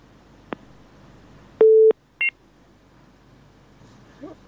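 A telephone disconnection tone sounds after a call is cut off. A brief click comes first, then one steady tone of about a third of a second, then a short, higher beep, all over a low background hiss.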